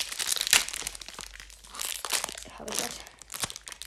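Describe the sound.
A Pokémon trading card booster pack, still packed in cardboard, is torn open with loud crinkling and tearing bursts, a sharp rip near the start and several further rustling swells of wrapper handling, with no speech.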